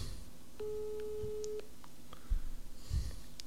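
A telephone call tone played through a mobile phone held up to a microphone: one steady beep of about a second, followed by faint clicks and low rumbling noise.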